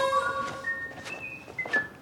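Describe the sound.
A person whistling a jaunty tune, a few sustained clear notes stepping between pitches, fairly faint and heard alone without talk.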